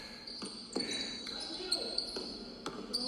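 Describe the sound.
A basketball dribbled up the court at a league championship game with about 200 fans, a run of sharp bounces at an uneven rhythm over a steady crowd murmur.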